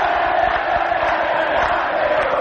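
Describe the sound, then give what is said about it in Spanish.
Olimpia football fans in the north stand of a stadium roar as one, a steady, dense wall of crowd voices that holds at an even loudness the whole time. “Público de Olimpia, sector norte.”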